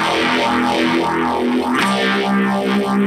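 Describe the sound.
Electric guitar with a fuzz pedal and a phaser, its heavily distorted sustained notes swept by a repeating whooshing phase effect, loud and slightly noisy throughout.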